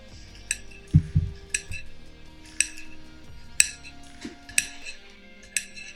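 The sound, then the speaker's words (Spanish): A knife cuts very thin, paper-thin slices in a series of sharp, crisp clicks and taps at an uneven pace, with a heavier low thump near the start. “vamos a cortar rodajas muy delgaditas como si fueran papel.”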